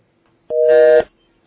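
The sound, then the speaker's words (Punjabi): Busy tone after a phone-in caller's line drops: one steady buzzy beep of about half a second, then a pause and the start of the next beep. “ਲੈਨ ਜਿਹੜੀ ਆ drop ਹੋ ਗਈ ਆ।”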